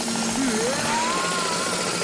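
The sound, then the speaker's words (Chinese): A loud mechanical whine from renovation work next door before dawn, its tone sliding upward in steps over a steady droning roar. “特别要感谢我们家隔壁的装修队，因为他们天还没亮就”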